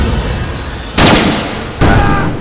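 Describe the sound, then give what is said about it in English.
Two sharp sci-fi energy blasts as the Green Ranger pushes a bolt of green energy out at Zed Warriors, each a loud sudden burst with a fizzing, fading high tail over steady background noise. “The Green Ranger reels back his hands into a pressed-together claw, then pushes, sending a bolt of green energy blasting out, taking out two of the Zed Warriors.”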